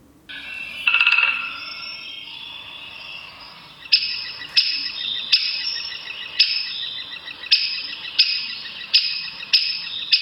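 A woodpecker's alarm call rings out as a series of sharp, high, short notes repeated at a fairly steady pace. An earlier brief buzzy call precedes the series, and no one speaks.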